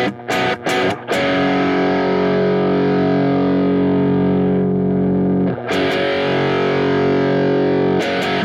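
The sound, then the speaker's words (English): Electric guitar strummed through a Tube Screamer overdrive pedal: a few quick choppy strums, then a loud distorted chord left ringing for several seconds, followed by two more struck chords that sustain with a gritty, saturated buzz. “I'm kind of over Tube Screamers, I guess, and it's not that it sounds... Should I do anything with this? Yeah, play it. Give it a little strummy strum.”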